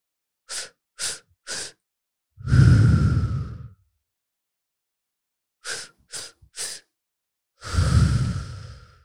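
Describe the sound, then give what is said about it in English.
Breathing exercise: a person takes three short, sharp breaths, then pushes out one long, forceful exhale from the belly. The whole pattern plays twice, loud and clear, with no talking. “3 short breaths and exhale hard through your belly until you feel your stomach literally empty of any bit of air left. So try it with me.”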